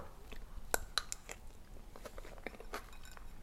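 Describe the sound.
Someone chews a mouthful of soft rice with ginger and egg. The sound is quiet and close, with moist mouth clicks and a few sharper crunchy bites spread irregularly through it.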